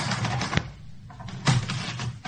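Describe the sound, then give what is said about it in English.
Clacking of a toy typewriter, its plastic keys struck in a few sharp mechanical bursts over a steady rattling hum, with no talk. “It's a typewriter. Not a real one, though.”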